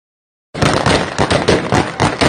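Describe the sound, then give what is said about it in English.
Gunfire crackles outside an airport in rapid, uneven bursts of sharp cracks. It starts abruptly after a moment of silence and stays loud and dense throughout. “And of course, you can hear the gunshots, so things are going beautifully right outside the airport.”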